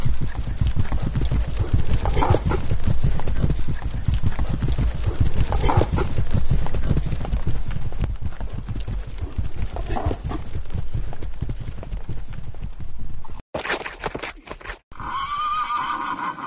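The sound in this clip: Galloping horse hooves pound in a dense, steady rhythm as a horse whinnies loudly during a ride, with the hoofbeats continuing almost throughout.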